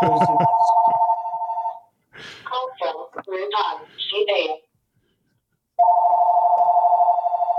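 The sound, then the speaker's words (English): A telephone rings with an incoming spam call: a steady electronic ring sounds at the start, gives way to talking, then resumes at the end. “here's my call. Here's your commercial.”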